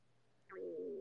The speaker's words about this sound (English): Oh, that's my stomach. I hope you didn't hear that.